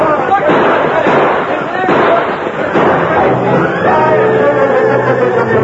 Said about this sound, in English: The unexpected attack from the stage took the outlaws by surprise. First, they tried to return the fire of the posse.